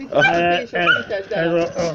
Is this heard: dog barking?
yes

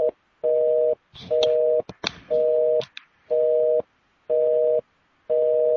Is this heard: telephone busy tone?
yes

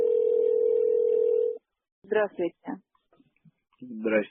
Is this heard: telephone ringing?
yes

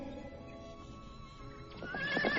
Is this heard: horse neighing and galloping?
yes

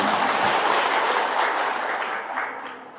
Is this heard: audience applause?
yes

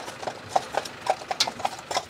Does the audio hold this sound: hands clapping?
no

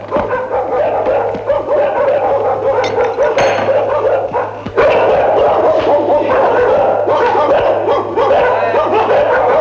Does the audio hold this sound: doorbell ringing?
no

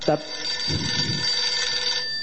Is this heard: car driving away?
no

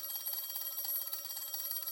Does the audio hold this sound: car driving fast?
no

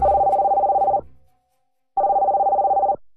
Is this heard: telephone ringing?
yes

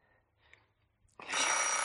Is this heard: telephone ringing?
yes

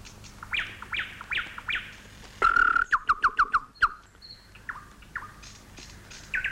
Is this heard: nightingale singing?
yes

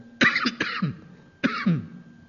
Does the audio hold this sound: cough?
yes

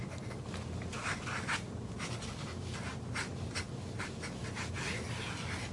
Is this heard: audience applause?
no

